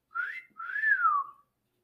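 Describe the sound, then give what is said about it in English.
A human-whistled wolf whistle, or catcall, plays alone in two clear parts: a short upward-sliding note, then a longer note that rises and falls away. “oh, a catcall whistle.”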